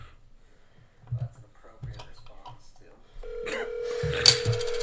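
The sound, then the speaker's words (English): A phone call being dialed: low voices at first, then a steady electronic tone starts partway through and holds to the end, with a sharp bright burst near its close. “Jeremy W. Miller is being dialed.”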